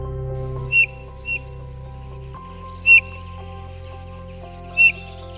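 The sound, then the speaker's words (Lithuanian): Flute-like calls of a Eurasian bullfinch: four short, soft, pure whistled notes, spaced irregularly, over a steady low droning background. “Lyg fleita skamba juodagalvė sniegena.”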